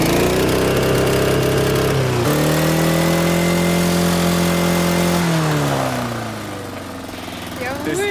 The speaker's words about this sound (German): Ich habe gar nicht gewusst, dass ein Rasenmäher einen Begrenzer hat. Puh, das gibt's. Aber nicht bei allen, aber bei dir schon. Starten wir mal an. Jawohl. So, und jetzt Begrenzer.